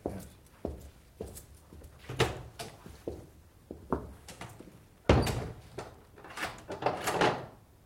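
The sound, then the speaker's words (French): A door being shut and locked: many sharp knocks, clacks and thuds of the wood and the lock mechanism, loud and irregular, with the heaviest bang about two-thirds of the way through. “Que faites-vous, mon père? Pourquoi verrouiller la porte?”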